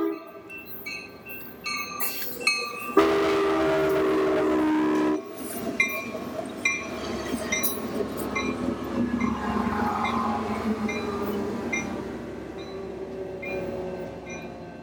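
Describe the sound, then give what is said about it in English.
Commuter train running north out of Seattle, a loud continuous rumble and rattle of rail cars with a long sustained horn tone early on, then steady wheel and track noise for the rest. “Sound Transit runs two major commuter routes, one south out of Seattle and this one north out of Seattle. Here we go.”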